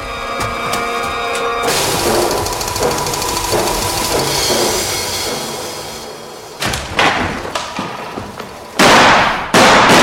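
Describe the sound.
Gunshots: a few sharp, loud bangs crack out near the end, after a long stretch of dense, roaring noise.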